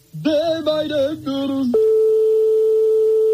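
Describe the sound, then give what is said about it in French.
A telephone ringing tone on an unanswered call to a private home during a phone-in game, a steady, loud single-pitched tone holding on after a short burst of musical notes. “comme on est chez des particuliers, forcément, ça sonne dans le vide longtemps et ça peut tomber sur un répondeur.”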